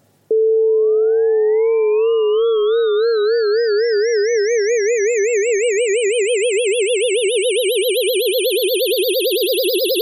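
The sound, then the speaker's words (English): Electronic tone made by converting the voltage of brain tissue during a seizure into sound. It starts abruptly on a steady pitch, then develops an ever faster, wider warble while a higher, thinner component sweeps steadily upward. “if you get to transform the voltage into frequency of sound, then it will sound like this.”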